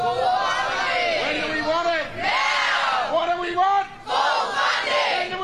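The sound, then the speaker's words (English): Striking teachers and staff from Victorian public schools chant in unison at a protest, a loud crowd roar rising and falling in about three sustained chanted phrases separated by short dips, with shouted voices throughout. “That, of course, is the sound of disgruntled teachers and other staff at Victorian public schools. They have been striking today, taking action to try and get a better deal from the Victorian government,”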